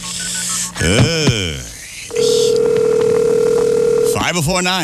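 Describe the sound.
Telephone dialing: a steady held tone with rapid short beeps and ticks over it, while a voice talks before and after.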